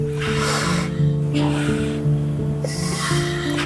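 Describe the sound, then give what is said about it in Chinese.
Breathing of a hospital ventilator in a ward: airy, whooshing breath cycles rise and fall over a steady mechanical hum. “转个弯走进病房，第一个进入听觉的是呼吸器的声音。”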